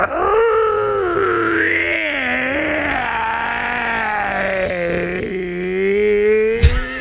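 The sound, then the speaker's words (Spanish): A human voice imitates a hoarse wolf howl: one long, loud, rasping tone that rises at first, then sinks and holds steady, rough and strained as if the throat were damaged. “Hacía un aullido como si fuera un lobo. ¿Cómo? Pero un lobo ronco, así como con problemas en la garganta.”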